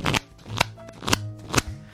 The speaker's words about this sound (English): I'm going to pick a tarot card from this deck that I have in my hand. I'm now going to make the sound to prove it.